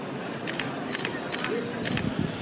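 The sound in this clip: A camera's shutter clicks during a portrait photo session, firing in a few quick double clicks spread across the moment, with a soft voice faintly underneath.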